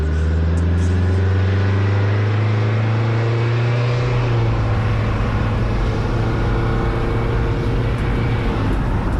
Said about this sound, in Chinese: 马上就要开车了。